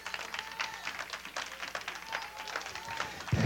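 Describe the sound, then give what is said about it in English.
An audience claps hands in praise during a church service, a steady stream of many quick overlapping claps with a faint sustained tone running beneath. “Give God a hand clap praise.”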